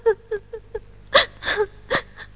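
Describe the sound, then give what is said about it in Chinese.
A woman sobs in a Henan opera performance, with a few short, catching sob-breaths in a steady rhythm followed by longer, louder wavering cries. “只问了一句，可就哭起来了。那要是多问几句，哭起来恐怕哄还哄不住你。”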